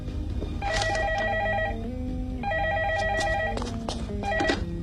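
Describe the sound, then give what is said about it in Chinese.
A telephone rings with an electronic warbling tone in repeated bursts separated by short pauses, moderately loud over a steady low background hum. “喂，啊、哦，说曹操，曹操来电话啦。”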